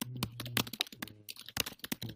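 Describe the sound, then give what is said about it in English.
Fast typing on a computer keyboard: a quick, uneven run of many crisp key clicks and taps with no pauses, heard alone. “Furious typing. Sorry.”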